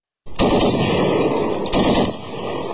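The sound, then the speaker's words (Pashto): Automatic gunfire in an exchange between Afghan and Pakistani border soldiers on the Durand Line: a sudden loud onset, then sustained rapid rattling bursts that run almost without a break, with no talking. “دا څه موده وړاندې پر ډیورنډ کرښه د افغانستان او پاکستان د پولیساتو سرتیرو د ډزو د تبادلې یو صحنه ده.”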